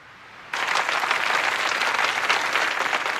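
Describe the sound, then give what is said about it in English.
A crowd applauds outside Westminster Abbey during a funeral, the clapping bursting in suddenly and then holding as a dense, loud, steady patter of many hands. “The Queen is stirred by the applause from outside the Abbey.”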